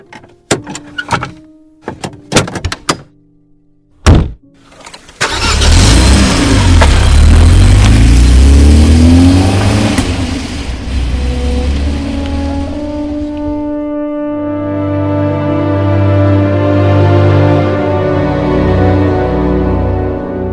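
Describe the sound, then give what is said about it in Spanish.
A car's doors click and thud a few times, then its engine starts and revs loudly as it drives off, the noise surging and easing before settling into a steady hum. “sube al auto. Vamos a ver esos otros cañones.”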